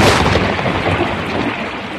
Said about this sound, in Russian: Ну как? Хороша моя буря? Нравится она вам?